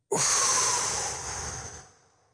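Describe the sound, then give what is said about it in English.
A person takes a deep breath, heard as one long, loud, airy breathing sound that starts abruptly and slowly tapers to silence. “1, 2, 3. Deep breath in. And out.”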